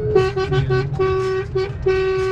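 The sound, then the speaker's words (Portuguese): A car horn honks in many short toots, with a few longer blasts. The steady, bright tone is held at one pitch and repeats in an uneven rhythm with no talking over it. “Ó a buzina lá, ó lá, que beleza.”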